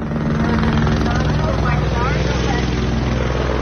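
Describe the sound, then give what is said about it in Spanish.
Helicopter over the coast in Los Angeles during a tsunami alert, warning people away from the shore: a loud, steady rotor drone with a low hum throughout, and an indistinct voice over it. “donde un helicóptero ha estado pidiendo a la gente que se aleje de la costa.”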